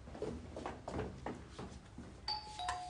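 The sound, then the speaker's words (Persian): A neighbour's doorbell is rung, giving a couple of bright chime tones near the end over steady background noise. “تو بی خود میکنی زنگ همسایه ما رو میزنی، نکن.”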